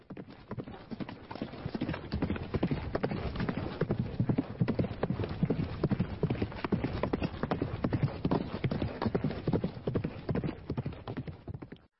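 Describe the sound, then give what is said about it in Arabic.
A mare's hooves clip-clop fast and unbroken as she prances and turns while being ridden. The many crisp hoofbeats run steadily for twelve seconds at an even loudness. “ركبت دانة ظهر شهباء لتتراقص بها مهرتها بخفة ورشاقة، وتلف وتدور وتصهل بصوت جميل”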